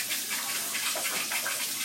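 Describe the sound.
Water runs from a cool-water faucet in a steady, even hissing rush with no breaks or voices.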